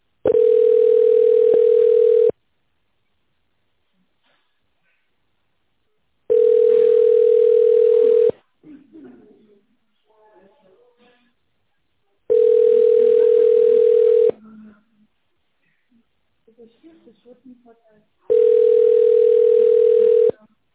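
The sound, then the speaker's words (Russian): Telephone ringback tone plays while a call to a company connects to an operator. Four long, steady, mid-pitched tones of about two seconds each are separated by longer gaps holding faint scattered noise. “Для соединения с сотрудником введите внутренний номер или дождитесь ответа. Соединяюсь с оператором.”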